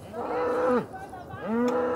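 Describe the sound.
Naturally hornless cattle lowing during a cattle drive, two drawn-out deep moos separated by a short pause, loud and alone.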